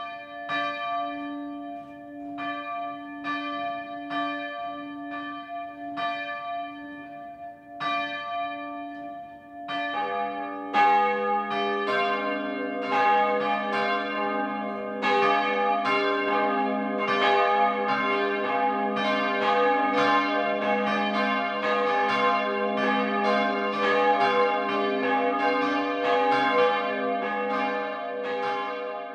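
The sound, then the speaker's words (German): Midday ringing of Catholic parish church bells in Tschirn, Upper Franconia, in the northern Frankenwald of Kronach district. Sparse, evenly spaced bell strikes open the peal, then more bells join in a dense, loud, overlapping ringing that continues steadily without voices. “Es ist 12 Uhr. Das Mittagsläuten kommt heute von der katholischen Pfarrkirche St. Jakobus im oberfränkischen Tschirn.”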